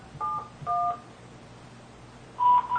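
Touch-tone keypad beeps sound as a telephone number is dialed. A few short, clear two-tone beeps are heard: two close together, then a pause before more at the end.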